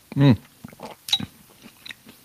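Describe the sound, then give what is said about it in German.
Wet mouth noises of someone eating minestrone soup while talking, with a few short slurps and bites scattered among brief bits of voice. “Übrigens für die, die sich wundern, was hier für Geräusche um die Ecke kommen, ich schlabbere eine Suppe nebenher.”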